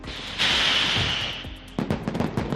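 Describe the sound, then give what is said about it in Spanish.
A mascletà firecracker barrage by Pirotecnia Tomás of Benicarló at Valencia City Hall during Fallas: a loud hissing roar gives way to a rapid, dense string of sharp bangs. “Este es el sonido de la última mascleta en sonar en el Ayuntamiento de Valencia, a cargo de Pirotecnia Tomás, de Benicarló”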